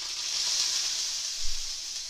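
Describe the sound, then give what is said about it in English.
Tuna chunks sizzle in a hot, oiled frying pan with a little stray water in it, a steady bright hiss of frying that carries on throughout, with one brief soft thump midway. “Now pan's hot, we just put the tuna chunks.”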